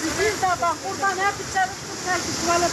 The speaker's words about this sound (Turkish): Sel her tarafı aldı götürdü böyle. Burası da Bolu'nun Gerede ilçesi. Sağanak sonrası Sadur köyünden geçen dere taştı.